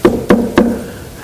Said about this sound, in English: He goes next door to his neighbor. He knocks on the door.